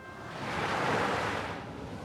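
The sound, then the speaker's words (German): Sea waves and wind heard while sailing on a windy day: a loud, continuous rushing roar that swells toward the middle and eases slightly at the end, with no voices. “heute, liebe Zuhörerinnen und Zuhörer, segeln wir gemeinsam ein wenig übers Meer. Es ist windig.”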